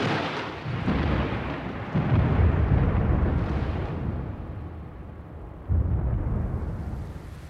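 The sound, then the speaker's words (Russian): Thunderstorm with a heavy downpour: a dense, continuous roar of rain under deep rolling thunder, which swells into a few louder rumbles. No voices are heard. “Какой разразился ливень. С детства боюсь грозы.”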